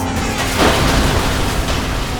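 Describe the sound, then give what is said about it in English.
A spaceship explosion in a science fiction radio drama, heard as a deep, noisy, roaring blast that fills the whole short stretch at a loud, fairly steady level with a slight swell near the start. “The ship is currently approaching Apollon 5. We know that. And will be destroyed in precisely 7 seconds.”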